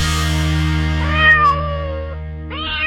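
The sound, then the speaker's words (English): Full-grown cat meowing: a drawn-out, wavering meow followed by the start of a second one that is cut short, over a low steady hum. “Now that's actually a full-grown cat right there, but I didn't really have a kitten handy.”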